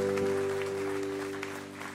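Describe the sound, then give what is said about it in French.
A church audience applauding, a faint patter of clapping beneath a steady held tone, the whole sound gradually fading. “Est-ce que vous pouvez applaudir l'église pour vraiment cette fidélité-là?”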